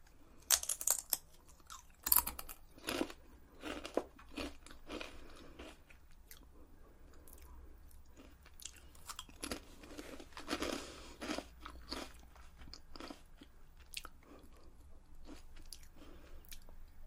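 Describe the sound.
Someone crunches and chews a lobster-flavoured snack from Thailand. Many quiet, crisp bites and chewing crackles come in an irregular stream, with the sharpest crunches near the start and softer mastication continuing throughout.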